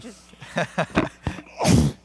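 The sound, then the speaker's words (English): A single loud sneeze bursts out after a few short, breathy build-up gasps, ending with one sharp, explosive release. “I'm going to sneeze, and it's going to be like really magnified.”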